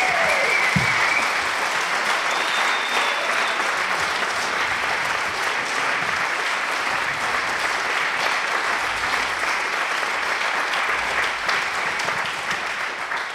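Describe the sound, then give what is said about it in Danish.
Audience applause welcoming the closing speaker, a dense, steady clapping that stays loud and even from start to finish with no voices rising above it. “Skal vi ikke byde hende velkommen med en stor varm hånd?”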